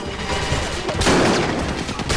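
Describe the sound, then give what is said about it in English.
Dense gunfire in a firefight: overlapping shots merge into a continuous, loud, crackling roar that swells heavier midway, with no voices. “Ray crouches as the firefight starts.”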